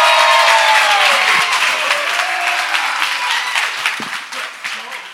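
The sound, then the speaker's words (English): A church audience applauds to welcome a speaker during a morning service, with loud, dense clapping at first that gradually thins and softens as it tapers off. “So would you put your hands together and welcome Molly as she comes up this morning.”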